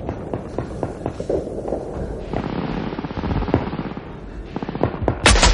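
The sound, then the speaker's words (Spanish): Gunfire from a World War II film scene in Saving Private Ryan, as soldiers shoot at German troops during a close-quarters fight: many rapid, loud shots crackle in a dense, continuous stream, ending in an especially sharp burst. “Alguien dispara desde el otro lado. Melis dispara al primer alemán y se abalanza sobre el segundo.”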